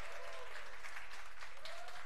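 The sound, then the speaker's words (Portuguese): An audience applauds steadily, with dense, continuous clapping at an even level through the whole stretch. “gostou, bate palma pra nós”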